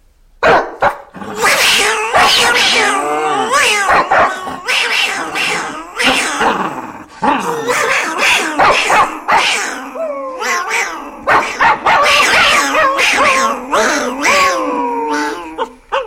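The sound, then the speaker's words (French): Two foley artists imitate a dog and cat fight with their voices, trading loud barks, growls and yowling meows in dense, overlapping bursts that run almost without pause. “Une bataille de chien et de chat, par exemple. Oh bah oui. Ça c'est facile. Alors tu fais le chat, toi ? Oui, allez, vas-y. Allez, moi je te vais faire le chien.”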